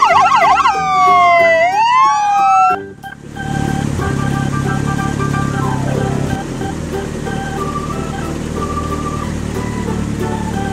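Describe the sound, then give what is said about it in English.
An ambulance siren wails in loud rising and falling sweeps for a few seconds, then cuts abruptly to a steady, noisy rumbling background with faint tones. “White ambulance.”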